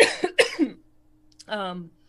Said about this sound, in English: I hope they didn't lead with the cough. No. I'm just dry.